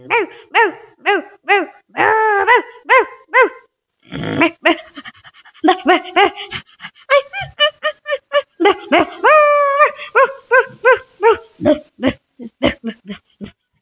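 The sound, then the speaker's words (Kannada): A puppy barks in many quick, high-pitched yips and whines, some sliding up and down in pitch, arriving in bursts with brief gaps and mixed with panting breaths. “ನಾಯಿ ಮರಿ”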